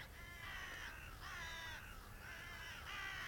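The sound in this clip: Ravens cawing: four long, harsh, rasping calls in steady succession, fairly faint and with no voices.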